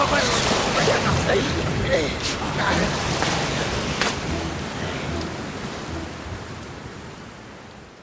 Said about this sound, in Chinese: 哎呀，车里进水了！ 哎呀， 哎呦！ 阿福哥的皮被雨水打湿了！